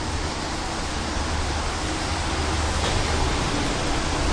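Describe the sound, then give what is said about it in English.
Hurricane wind and rain make a loud, continuous rushing roar, a dense and steady wash of noise with no distinct separate events. “It's a fucking hurricane. Oh, I'm wet.”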